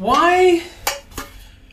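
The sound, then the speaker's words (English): A utensil clinks against a non-stick pan as butter is put in. A short squeaky scrape comes first, then two sharp metallic taps. The sounds are fairly loud and no voices are heard. “This is a non-stick pan. I'm putting butter in a non-stick pan.”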